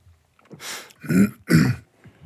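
A person clears their throat in a few rough, gravelly bursts. The last two bursts are the strongest, and no speech runs over them.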